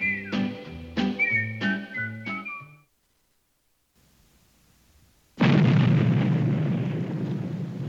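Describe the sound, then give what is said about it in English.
A single loud dynamite blast for an underpass being built erupts into a broad roaring rumble that slowly fades. It follows a few short plucked musical notes and a brief pause. “Boy, when that dynamite goes off, it makes a racket, don't it? But gentlemen, that noise is the sound of progress.”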